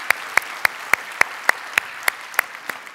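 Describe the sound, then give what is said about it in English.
Steady hand clapping, ten sharp, evenly spaced claps at a brisk regular pace, loud and crisp over a low background hiss, with the final clap softer than the rest; no voices are heard. “So if you would, put your hands together, get loud.”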